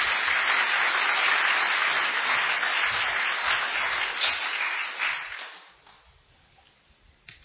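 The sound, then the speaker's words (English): Audience applause welcoming a speaker to the stage at a lecture event: dense, steady clapping holds for about five seconds, then thins out and tails off into a few scattered claps. “So will you put your hands together and join?”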